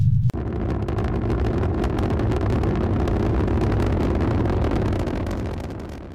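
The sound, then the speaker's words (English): Spaceship proton engines throttling up: a sharp click, then a loud, steady, deep roar that holds and tapers off near the end, without speech. “Proton engines ready. 10 degrees, 5 degrees, on course. We are go for throttle up.”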